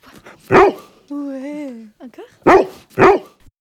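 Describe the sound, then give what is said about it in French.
An assistance dog barks loudly on its own. One sharp bark is followed by a drawn-out, wavering whine, then two more barks in quick succession. “c'est un chien d'assistance, on l'a appelé chien de confidence.”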